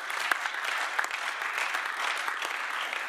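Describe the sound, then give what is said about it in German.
Applause fills a parliamentary chamber: sustained, dense clapping from many members that holds a steady, even level throughout, with no voices standing out. “Applaus”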